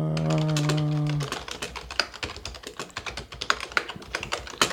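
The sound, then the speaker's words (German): A loud computer keyboard clatters under rapid typing, with many sharp, uneven keystrokes that come in quick bursts. “Zum Glück ist bald Weihnachten, da können wir dir eine leise Tastatur schenken.”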